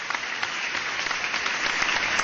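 Applause from an audience, a dense steady wash of many hands clapping at even loudness for a couple of seconds, with no voices over it.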